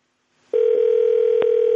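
Ringing tone of a telephone call placed again to an unanswered number: a steady, continuous tone starts after a short silence and holds unbroken to the end, with one brief click partway through.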